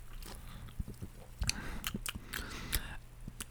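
Wet lip smacks and mouth clicks as someone tastes a freshly stirred drink, a few sharp, scattered smacks over a steady low hum, with no talking.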